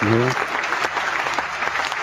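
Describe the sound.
Applause sound effect played from an iPad through a mixing board: dense, steady crackling clapping throughout, with a brief voice at the very start.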